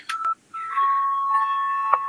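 An electronic bell signal calls members of a parliament chamber to a vote. A short pair of tones and a brief gap give way to a steady, sustained electronic tone, ending with a small accented blip.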